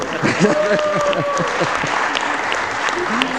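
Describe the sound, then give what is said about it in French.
Applause at a French municipal council meeting, a dense and steady clatter of many hands with a voice talking over it at the start. “applaudissons. Merci beaucoup.”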